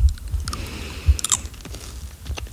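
Crunchy snack being chewed, loud and close: continuous crisp crunching and grinding bites with irregular cracks throughout, and no talking.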